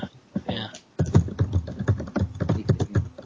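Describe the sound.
Typing on a keyboard: a brief flurry of taps, then a short pause, then many steady, rhythmic keystrokes with a dull, thudding attack.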